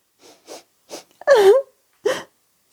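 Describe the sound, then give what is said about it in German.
A voice imitates a snail crying, with a few short sniffling sobs, then a longer, loud, wavering wail, and then further sobbing bursts separated by silence. “Da hinten, auf der anderen Seite, da ist eine Schnecke, die weint.”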